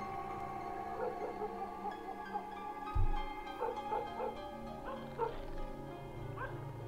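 A dog outside barks in a few short bursts, harmonic yelps rising above a steady low hum, with one dull thump partway through.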